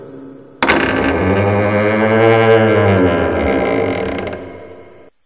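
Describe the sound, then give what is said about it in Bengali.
A wooden door swings open in a room upstairs with a long, loud creak. It starts abruptly and groans on with a wavering, harmonic tone for several seconds before slowly fading. “উপরে উঠে একটা ঘরের দরজা খুলে দিল রাম”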